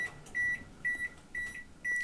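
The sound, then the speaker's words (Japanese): A microwave oven beeps four times at an even, steady pace while pot-au-feu is being cooked. The short, high electronic beeps sound fairly quietly over a low background hum. “電子レンジが返事で肯定してくれた、嬉しい。”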